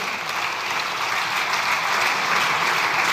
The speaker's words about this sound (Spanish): Ahí sí que le aplaudieron.